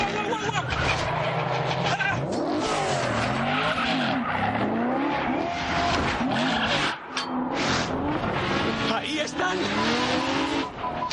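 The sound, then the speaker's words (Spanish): Tires squeal in long, wavering sweeps as a car skids into a handbrake spin on narrow streets during a motorbike chase, with loud engine roar throughout. “Los motoristas están muy cerca. Izan echa el freno de mano, hace un trompo y arrolla a dos.”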